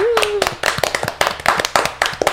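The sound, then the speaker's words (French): Audience clapping to welcome a guest singer on a music show: sharp, distinct claps fall in a quick, even beat throughout and sound like a small group rather than a large crowd. “On va tous l'applaudir.”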